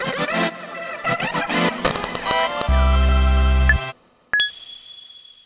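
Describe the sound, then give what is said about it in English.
Short musical stinger sound effect: a rapid burst of bright synth notes, then a sustained deep 808 bass hit, a brief silence, and a single bright bell-like ding that rings out to the end. “And so the one we came up with, which is our new Changelog Plus exclusive stinger, or sting, I don't know, I'm not an audio nut, is called You Found a Secret Coin dot wave.”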